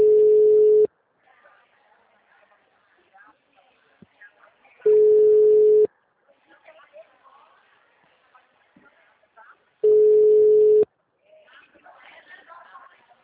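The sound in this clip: Ringback tone of an outgoing telephone call: three steady, mid-pitched tones, each about one second long and spaced roughly four seconds apart, with faint background sounds in the quiet gaps.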